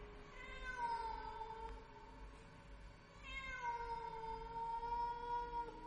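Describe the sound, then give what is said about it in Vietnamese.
A black cat on a window ledge yowls mournfully at night, giving two long, wavering, high-pitched cries, the second drawn out longer than the first, both faint over a low hiss. “Rồi một con mèo đen kìn kịt, nó nhảy tót lên trên chỗ bậu cửa. Ánh mắt nó nhìn anh Khoan xanh lè lè. Nó kêu lên mấy tiếng thê thiết trong đêm.”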